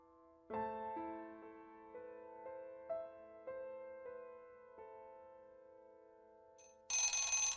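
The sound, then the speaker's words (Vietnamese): A school bell signals the end of class with a ringing electronic chime, playing several clear, bright tonal notes in a steady sequence, then cut off by a sudden loud burst of noise at the end. “Tiếng chuông báo hiệu giờ tan lớp rú lên inh ỏi khắp cả dãy nhà.”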